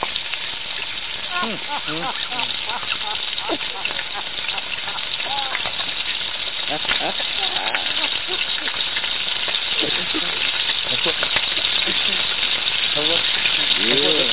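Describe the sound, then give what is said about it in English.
Food sizzles and crackles in hot oil while being fried well done, a steady dense hiss that continues for the whole stretch as voices talk over it. “Man, fry that. And make sure it's well done. And make sure it's well done. Burn that motherfucker. Fry baby.”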